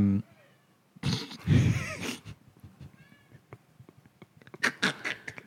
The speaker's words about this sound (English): Tommy the Cat, everybody. Can you hear him? Oh, I can hear him.